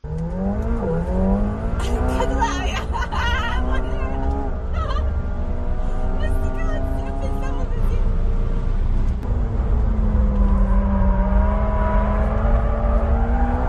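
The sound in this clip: A McLaren sports car's engine roars through a fast lap with a passenger aboard, its pitch climbing in repeated sweeps as it revs and shifts gears, steady and loud throughout, with voices audible at times over the engine.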